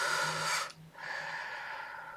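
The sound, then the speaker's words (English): A deep breath taken slowly: two long, soft, airy breath sounds separated by a short pause, with no talk. “When we pause and take that deep breath,”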